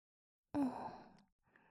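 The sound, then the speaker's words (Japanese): Gentle blowing into the ear: one soft, breathy exhale that starts abruptly, then thins and fades out, followed by a faint trailing breath. “お耳ふうふう、気持ちいいです。”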